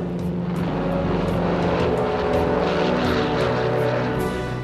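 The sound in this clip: Loud, steady propeller drone from a Lockheed Electra airplane taking off from a runway, a continuous engine roar that holds an even level throughout with no voices.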